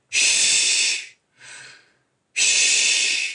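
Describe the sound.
Forceful, hissing exhalations demonstrating breathing out under exertion while pushing a leg through on each step: a long blast, a shorter softer one, then another long blast.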